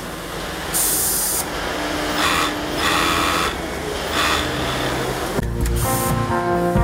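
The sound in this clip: A sewing workshop in Bishkek fills the air with steady mechanical whirring and hiss. Sharper high bursts come and go, and the machine tone shifts near the end.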